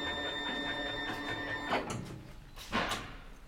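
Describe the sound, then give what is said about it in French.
A t-shirt printing machine at work: a steady mechanical whir with a thin high whine that stops partway, followed by two broad, fairly loud sliding clunks. “on a mis le t-shirt sur la machine. Donc là, on va vous imprimer un t-shirt.”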